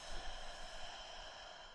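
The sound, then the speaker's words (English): A soft, deep breath in and out during a tapping relaxation exercise, faint and airy, with a gentle rush that eases off toward the end. “I just want you to take a really deep breath in here as you tap here. And letting it go.”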